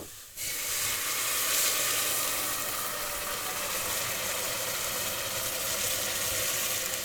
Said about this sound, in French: J'ai déglacé avec de l'eau et du soja.